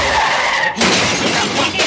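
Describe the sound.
A car skids and crashes into a newsstand: a loud, hissing tire skid gives way to a harsh burst of smashing and shattering that keeps rattling. A voice briefly speaks under it.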